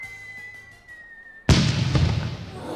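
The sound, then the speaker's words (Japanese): Fireworks burst with a sudden loud boom halfway through, then a sustained crackling rumble; a steady high tone sounds before the blast. “わー、綺麗。やっぱり花火はいいですね。”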